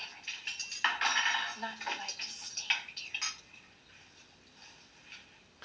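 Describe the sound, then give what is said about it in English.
Cutlery clattering at a dinner table: forks, spoons and knives clink against dishes in a busy burst of bright metallic taps, which thins out into faint, scattered clinks. “why would they even set him up at the dinner table with forks and spoons and sporks”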